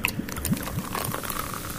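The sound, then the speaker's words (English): Brothers Tutti Frutti pear cider pours into a glass in short bubbly glugs with light fizzing and crackling, quiet and brief. “this is the Brothers Tutti Frutti Pear Cider. The other one we tried had a kind of like summer berries thing to it. I'm not sure if that was that was from the Brothers range. So in fact, I'll pour some out and then we can.”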